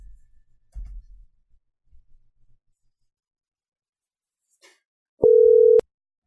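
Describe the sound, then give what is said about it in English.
A steady telephone tone sounds as a call is placed to a bail bond office, lasting about half a second and preceded by a few soft handling thumps and faint rustles. “Let's call a different bail bond place.”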